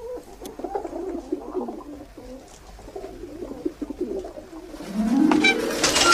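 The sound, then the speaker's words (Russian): Pigeons at a dovecote coo repeatedly in soft, low, throaty phrases. Toward the end, a louder, noisy swell rises, joined by a climbing tone. “Из голубятни вылетают голуби.”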